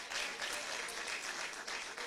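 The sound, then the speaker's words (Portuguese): A church audience claps hands in praise during a worship service, a dense, steady wash of applause that holds throughout at a moderate level with no voices standing out. “Para bater as palmas da glória.”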